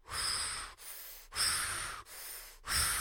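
Deep rhythmic breathing from a breathwork exercise: forceful, airy breaths push in and out in a steady cycle, about five strokes alternating stronger and softer within three seconds, with no talking.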